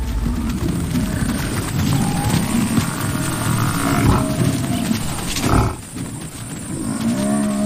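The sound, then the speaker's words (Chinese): An African buffalo herd lowing as lions chase it off, with deep moos and grunts over a loud, dense, continuous rumble of movement that dips briefly before resuming. “牧师没有退缩，依旧紧咬住非洲水牛幼崽不放。与此同时，另一些狮群成员迅速冲上前，赶走了非洲水牛群。”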